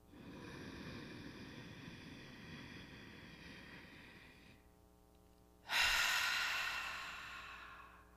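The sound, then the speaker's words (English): A slow, deep exhale during a breathing exercise: a long, soft breathy rush that fades over several seconds, then after a short pause a louder, fuller burst of breath. “Exhale, let it go. One more, just like that.”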